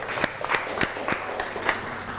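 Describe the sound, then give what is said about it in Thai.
Clapping as children applaud themselves in a lesson: distinct claps in a fairly steady rhythm, moderately loud, with soft noise between them. “เก่งมากปรบมือให้ตัวเองหน่อย”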